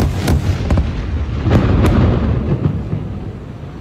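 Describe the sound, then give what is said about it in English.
Israeli missile strike collapsing the Gafri high-rise in Gaza City, with several sharp, loud blasts over a heavy, continuous rumble that swells in the middle and then slowly eases. “On September 15th, Israel dropped the Gafri high-rise building in Gaza City. Reporter Ahmed Ibrahimi filmed this clip.”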